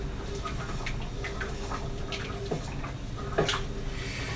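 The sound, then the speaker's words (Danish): Water sloshing softly in a pot as pasta is stirred on a home kitchen stove burner. A continuous gentle wash carries a couple of brief clinks near the end. “Rør rundt i min pasta her.”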